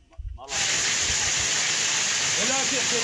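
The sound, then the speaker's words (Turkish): Heavy rain turning to hazelnut-sized hail in the Boğazlayan district of Yozgat, a dense, loud, even roaring hiss that bursts in after half a second of low rumbling noise and continues without a break. “Yozgat'ın Boğazlayan ilçesinde sağanak yerini doluya bıraktı.”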